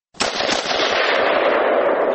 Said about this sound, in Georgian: ასე ისვრის თვით დამტენი შაშხანა ბუშმასტერი.